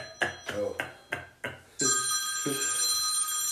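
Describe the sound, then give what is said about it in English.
Telephone ringing for an incoming call: steady, bright ringing tones start partway through and hold to the end, after a few short bursts of talk. “Oh, we got a caller. We got a caller coming in.”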